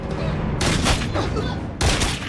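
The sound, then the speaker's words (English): Two gunshots ring out in a TV drama scene. Each is a loud, sharp blast with a decaying tail, and the pair is separated by about a second. “Now, that shouldn't be instantly lethal. He shot from the wrong side of the chest. Oh, I don't know. That second shot probably puts him down.”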